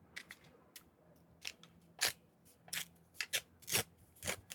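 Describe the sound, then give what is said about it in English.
An envelope being opened: faint, crisp paper crackles and tearing rustles in many irregular bursts, with a few louder snaps among softer ones. “Just open the famous envelope here”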